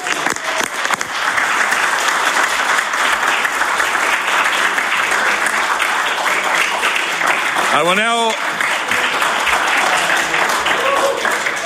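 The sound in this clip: Applause from the floor of a legislative chamber welcomes a mental health worker seated in the gallery, a dense, steady clapping that fills the whole stretch, with one brief vocal call rising through it near the end.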